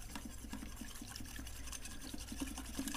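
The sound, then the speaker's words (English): A tiny whisk mixes a liquid blend with a few drops of vanilla, making faint, rapid clicking and soft wet swishing that stays steady and continuous throughout. “And then just because this is the most adorable little whisk in the world, I'm going to mix it together.”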